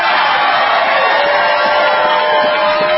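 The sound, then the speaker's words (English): Crowd of supporters cheering at Donald Trump's South Carolina Republican primary victory speech, heard as a dense, continuous roar of voices, loud and unbroken from start to finish. “He spoke to a crowd of supporters after the results were tallied Saturday.”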